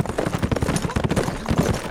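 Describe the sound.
Hoofbeats of five riders' horses approaching at speed: a rapid, dense drumming of many hooves that stays loud and steady throughout.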